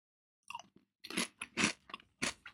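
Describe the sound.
Crunchy chips, days old but still crisp, chewed close up: a few sharp, dry crunches in an uneven rhythm with short pauses between bites.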